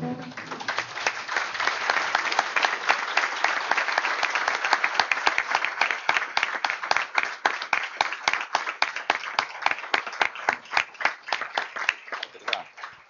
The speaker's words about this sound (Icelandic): biðja fundarmenn að rísa úr sætum og gefa þeim gott klapp sem að tóku af okkur ómakið að gera þetta.